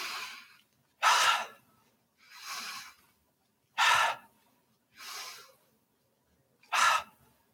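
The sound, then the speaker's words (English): Three deep breaths taken during a guided breathing exercise, heard as six separate breath sounds alternating between softer and stronger rushes of air, evenly spaced with short silences between them. “Now maybe you stand, bounce in place, take 3 deep breaths.”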